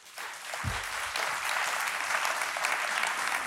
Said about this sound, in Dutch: Mag ik een applaus voor Lisanne Snijders?